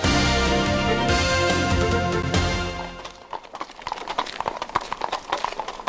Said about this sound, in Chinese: 马蹄踏在小方石块铺成的街道上，听起来格外的清脆，尤其是在深夜。